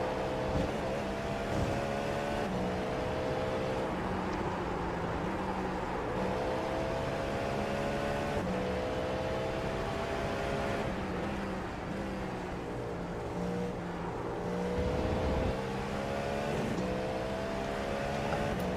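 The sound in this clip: A race car engine drones steadily while driving a road course, its harmonic tone rising and falling as it shifts through revs, loud and continuous with no talking.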